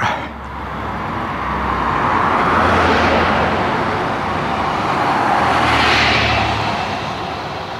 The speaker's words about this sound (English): Car noise. God, the car noise.